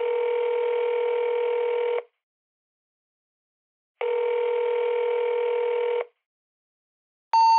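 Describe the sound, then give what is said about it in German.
Telephone ringback tones sound when calling a service number: two steady, even tones of about two seconds each, separated by silence, then a further short tone begins at the end. “Sie rufen eine Servicenummer an und hören Folgendes.”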